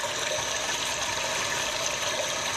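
Rushing water sound played by the noise masker in a train-station platform toilet, a steady, unbroken hiss of flowing water with no other sounds.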